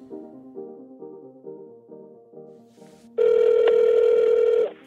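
A telephone call being placed: a steady string of short, repeated dialing tones, then a loud, sustained ringing tone that holds for over a second before cutting off.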